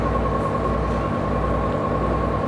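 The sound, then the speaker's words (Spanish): A bus departing for Atagna: a loud, steady engine rumble with a thin, constant whine above it, holding level throughout with no talk over it. “Saliendo, venimos para atrás. Ya se va el bus.”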